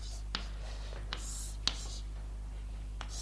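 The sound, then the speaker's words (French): Writing on a blackboard during a lecture, heard as a few faint, brief scratchy strokes spaced apart over a steady low electrical hum, with no talking. “Je vais peut-être écrire au tableau, puisqu'il y a un tableau.”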